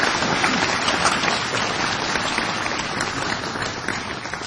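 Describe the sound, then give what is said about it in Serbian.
Audience applause welcoming a speaker: dense, sustained clapping from a crowd, steady and loud throughout and easing only slightly toward the end. “Danas molimo da ga pozdravite jednim velikim aplauzom.”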